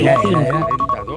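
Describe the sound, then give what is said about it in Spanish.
Telephone keypad dialing tones: a quick run of short, evenly spaced, mid-pitched beeps sounding over people talking. “¿Ya estás marcando?”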